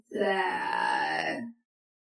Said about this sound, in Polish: słyszę jakieś dziwne odgłosy, jakby płakał. Tylko dlaczego niby płacze?